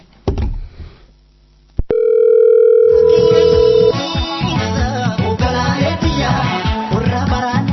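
A telephone dial tone while a call is placed: after a brief noisy burst and a sharp click, a loud, steady single-pitched tone holds for about two seconds, then dense tonal, music-like sounds take over.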